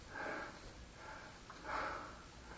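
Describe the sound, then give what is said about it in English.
Breathing in through the nose: three slow, soft sniffing inhalations, each a gentle breathy hiss that swells and fades, faint and alone without talk. “See how easy it is to breathe? It's natural.”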